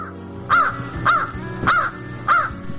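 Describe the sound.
Four harsh crow caws at an even, unhurried rhythm, loud and clear with no talk, from a crow perched on a tree branch above people standing in a valley.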